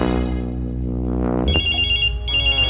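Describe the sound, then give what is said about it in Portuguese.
A telephone ringing with a call from home during a coffee break: a steady low hum, then two bright electronic trilling bursts of ringtone, with no talk. “É a mulher ligando lá de casa. O que é que ela quer, hein? Puxa vida, Arnaldo. Sua mulher ligando agora, bem na hora do nosso café.”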